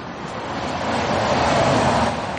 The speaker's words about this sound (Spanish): El taxi arranca y se marcha.